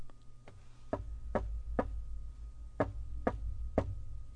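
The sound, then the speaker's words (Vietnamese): Knocking on a door at ten at night: about seven firm, evenly spaced knocks come in two groups with a short pause between them. A low, sustained background drone continues underneath. “Tiếng đập cửa có tiết tấu, không nhanh không chậm vang lên.”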